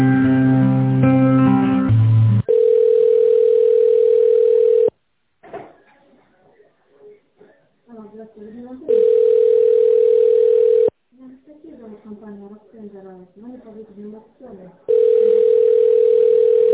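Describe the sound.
Telephone line tones play while a call is transferred: a steady, loud, unwavering tone sounds in three long stretches, with talk in between. A brief melodic passage comes first.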